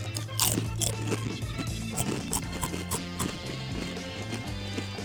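Crisp crunching as someone bites into a lime-flavoured snack: several sharp crunching bites over a steady low hum, at moderate loudness.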